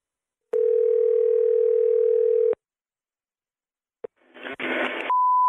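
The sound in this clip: A telephone dial tone hums steadily for about two seconds and then cuts off. After a pause come a sharp click, a burst of line noise and a clear, steady higher beep.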